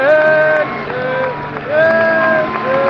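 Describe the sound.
Loud crowd noise at a football stadium in Spain as the teams walk out, with confetti and a huge flag on the centre circle. A dense, continuous roar carries sustained held tones above it and swells again near the end.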